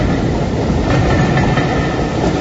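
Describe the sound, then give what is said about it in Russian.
A train glides along its rails in a steady, dense rumble that stays loud and unbroken throughout, with no voices. “Он высунул голову, пытаясь разглядеть состав, но увидел лишь длинный выгнутый сегмент поезда, скользящий по рельсам, убегающий от зимы.”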